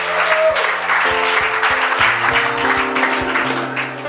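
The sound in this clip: A church audience claps during worship. Sustained musical tones and low notes run beneath rhythmic clapping that stays loud and steady throughout.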